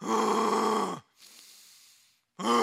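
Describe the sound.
A voice imitates the strained, labored exhale of someone barely able to breathe, about ten days into an illness: a loud, rough groaning push of breath, a softer breathy hiss, then another groan starting at the end.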